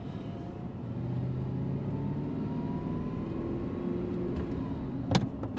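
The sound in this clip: A car engine pulls away in second gear as the clutch is let out slowly, giving a faint, steady low rumble with a soft tonal hum. A brief knock sounds near the end.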